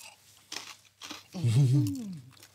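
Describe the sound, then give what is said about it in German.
Crisp food bitten and chewed, eaten with fig, cheese, honey and lemon: two short crunchy crackles, then a voiced hum of enjoyment, all fairly quiet. “Deswegen gehe ich mal so rein. Ist natürlich knusprig, wie man unschwer hören kann.”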